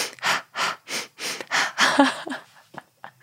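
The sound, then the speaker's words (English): A person sniffs sharply through the nose in a quick, evenly paced series of airy bursts, then a few fainter, irregular sniffs. No talk. “are you guys like freaking out because I'm sniffing into your earbuds right now?”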